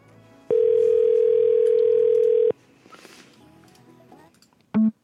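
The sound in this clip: A telephone ringing tone on an outgoing call sounds as one loud, steady mid-pitched tone for about two seconds. Quiet follows, then short electronic beeps near the end.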